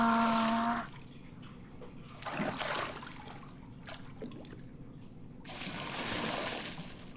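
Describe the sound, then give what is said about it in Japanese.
Hot water is poured out into a bath as soft, gushing splashes: one short pour near the middle and a longer one toward the end, both fairly quiet. “まずはお湯、ザバ”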